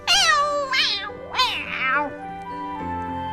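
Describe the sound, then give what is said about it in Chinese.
Cats meowing as they leap out of a box to join a chase after birds: a few loud, high, wavering meows in quick succession, each bending downward, followed by a quieter stretch at the end. “来自帕金森诊所的印度薄饼猫咪组，钻出了盒子，加入了这场追鸟大战。”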